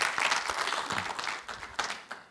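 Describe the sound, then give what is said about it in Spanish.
Applause from a church audience at a Hispanic women's retreat, a dense, steady burst of clapping that holds at an even level and then thins out toward the end. “déle un aplauso al Señor, claro que sí”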